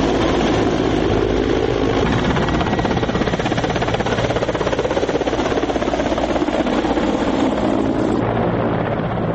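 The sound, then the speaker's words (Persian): Loud, continuous rotor roar of an armed Mi-17 military helicopter on a test flight near Kabul, a dense even drone with rapid blade chop throughout and no voices. “پیلوتان افغان در پایگاه نزدیک به کابل پروازهای آزمایشی و تطبیقات تیاره‌های مسلح شده نو می‌17 را انجام می‌دهند.”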